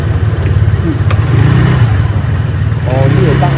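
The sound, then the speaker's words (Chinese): A scooter engine runs as an elderly woman rides off on it, giving a loud, steady mid-pitched drone with a buzzing exhaust note that holds throughout. “过了30分钟，阿嬷终于顺利地骑上机车，出门了。”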